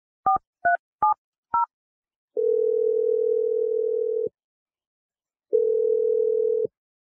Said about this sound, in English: we're going to dial her number right now and try and get your second date update